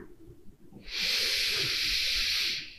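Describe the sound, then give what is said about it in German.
Deep breath drawn in through the nose: a single long, steady airy hiss that starts abruptly and holds for under two seconds before cutting off. “Schließ deine Augen, atme mit mir einmal tief durch die Nase in den Bauch ein.”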